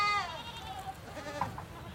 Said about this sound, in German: Im Hintergrund meckern einige Lämmer, die ich mit Flasche und Eimer großgezogen habe.